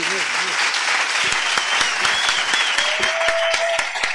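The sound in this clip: A group applauds itself in congratulation, with loud, steady clapping throughout. Voices can be heard briefly at the start.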